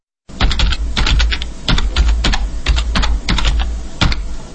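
Rapid clatter of a computer keyboard as a website address is typed: many loud, quick keystroke clicks in uneven bursts with short pauses, no voices.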